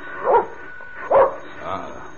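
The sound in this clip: A dog barks behind an apartment door: two loud barks, then a fainter third one.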